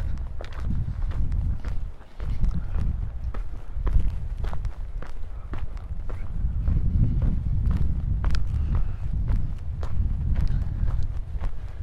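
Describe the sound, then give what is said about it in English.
Many footsteps walk past tents outdoors on a breezy morning, each step a short crunch in a steady, even rhythm over a low rumbling background. “I just walk past these tents.”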